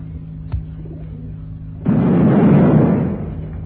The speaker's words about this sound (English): Now, switch on the transmitter. Yeah, working perfectly. Now we activate the bomb